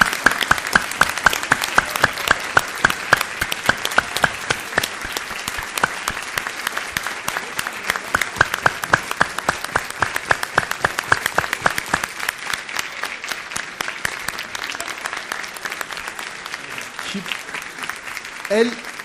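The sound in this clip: Loud audience applause at a gathering, with dense, rapid hand claps sustained for the whole stretch. The clapping eases slightly toward the end.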